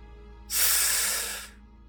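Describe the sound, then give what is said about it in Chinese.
One sharp, forceful inhale: a single burst of breathy hiss about one second long that starts abruptly and fades out, over a faint, steady background hum. “猛然，凌晨用力一吸气”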